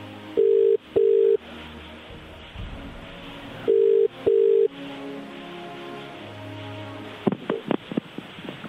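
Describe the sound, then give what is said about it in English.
Telephone ringback tones play as a number is dialed: two low double-beep rings separated by a pause of line hiss, then a few sharp clicks near the end. “I'm just punching in his number. I'm assuming it's this other one I've written down. Here we go. It's about to dial.”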